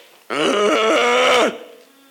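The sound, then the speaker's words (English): A person groans in pain as one sustained, voiced moan of about a second, loud and steady with a slight wavering pitch, heard alone. A voice imitates the groan. “I don't know if that's what his groan was.”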